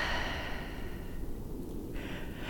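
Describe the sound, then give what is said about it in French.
A deep breath drawn in and let out during a slow breathing exercise, a soft, steady airy rush that runs throughout with a brief lull before the air flows again. “Encore une fois, inspire. Expire.”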